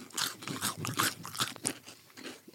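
Someone bites and chews a crunchy vegan Bueno-style wafer snack with a cream filling, made by the brand Better. It is a quick run of dry, crisp crackles and crunches, fairly faint, with no talk.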